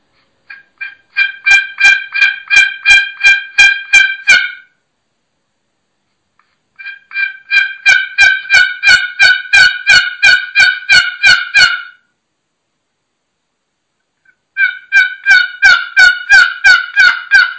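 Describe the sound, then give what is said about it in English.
Turkey yelps are worked on a one-sided box call. Three runs of rapid, evenly spaced raspy yelps come loud and alone, separated by silent pauses. “That's the one-sided box call.”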